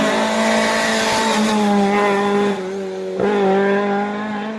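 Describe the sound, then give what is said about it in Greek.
A Stratos rally car with a 2.4-litre 24-valve V6 roars at high revs in a loud, sustained, buzzy drone. The revs drop briefly, then climb back up. “νομίζω είναι αυτοκίνητο που το έχει συνδέσει με τους αγώνες, έτσι, χαρακτηριστικός ο ήχος.”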